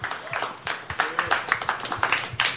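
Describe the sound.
Applause from an audience welcoming a guest to the microphone at a live show: many quick overlapping claps in a steady, fairly faint patter that continues throughout.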